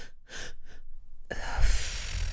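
Breathing exercise with a double in-breath: two short, breathy bursts of air in quick succession, followed by a longer, steady rush of breath that carries on to the end.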